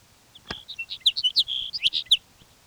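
A bird calling in a rapid series of many high, thin chirps, faint and uneven in rhythm.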